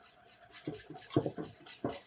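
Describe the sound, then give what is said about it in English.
A whisk clatters against a pot as a thickening mixture is beaten to break up lumps: faint, irregular scraping and tapping strokes, several in quick succession, with no voices. “So with the spatula, I scrape the bottom. I keep my bottom clean. And with the whisk, I whisk. So I cut the lumps so that in the end it will be smooth.”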